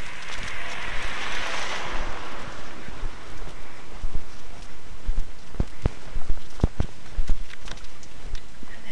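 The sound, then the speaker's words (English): Meltwater from thawing snow running into a street drain, a steady wet hiss with scattered sharp drips and taps that grow more frequent in the second half. “Drain, so something's thawing.”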